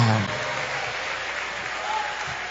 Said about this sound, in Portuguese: palmas que louvam o Senhor, aleluia.